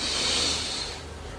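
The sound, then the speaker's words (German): A long, deep breath in during a guided meditation: a loud, breathy hiss of air that holds steady and then slowly fades toward the end. “Wir nehmen zusammen, alle zusammen einen tiefen Atemzug und atmen ein.”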